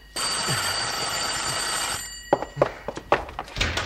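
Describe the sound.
A telephone bell rings in one long, loud, continuous burst with a bright metallic tone, then cuts off, followed by a few sharp, irregular clicks and thumps.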